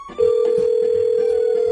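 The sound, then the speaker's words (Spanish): Outgoing phone call ringing on the line, a single steady mid-pitched electronic tone that begins after a short click and holds unbroken to the end over faint background sounds. “Que le estamos llamando, a ver, espérenme.”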